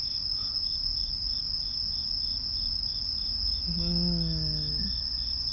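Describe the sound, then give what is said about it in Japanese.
A cicada-like insect buzzes in one steady, high-pitched drone. It holds an even loudness for the whole clip with no pauses and no voices. “今何の音？なんかセミみたいな音しなかった？”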